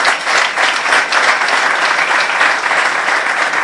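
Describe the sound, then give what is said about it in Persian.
An audience applauds with dense, steady clapping that stays at an even, fairly loud level throughout with no clear breaks. “برای ملیکا دست بزنی هستش.”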